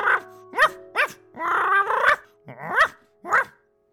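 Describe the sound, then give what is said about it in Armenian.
A human voice imitates a dog barking, giving a loud series of woof-like barks with short gaps, one stretched into a longer, rougher growling bark. “Հիմա էլ կանեմ։ Woof, woof, woof, woof, woof, woof”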